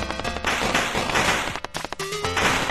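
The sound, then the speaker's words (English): A machine-gun power-up fires in a twin-stick shooter video game, producing a dense stream of rapid crackling shots mixed with tonal game music and effects. “You get various power ups, such as a machine gun that shoots in every direction simultaneously.”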